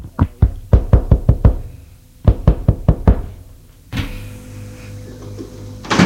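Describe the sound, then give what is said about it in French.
Knocking on the door of a concierge's lodge by a marble staircase: two bursts of rapid, sharp knocks, the first longer, the second about five blows, followed by a steady low hum. “Frappe à la loge de la concierge.”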